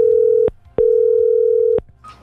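Telephone ringback tone heard while a call is placed to a listener: a steady, single-pitched tone. A clipped burst is followed by a gap and then one full tone of about a second, with faint noise after it.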